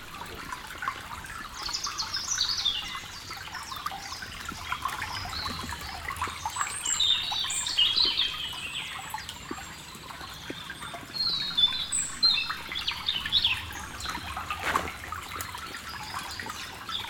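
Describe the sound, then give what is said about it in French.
A small stream flows beneath the vault of a little bridge in the Pyrenees, making a steady trickling rush. Bird chirps and calls are scattered over it throughout. “je me trouve sous la voûte d'un petit pont qui enjambe un petit ruisseau.”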